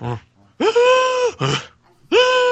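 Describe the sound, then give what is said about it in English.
A human voice imitates a fish gasping on a boat floor, making a few loud, strained, croaking gasps. The longer drawn-out ones are separated by brief pauses. “when people throw the fish, like, say, on the boat, on the floor, and it's like,”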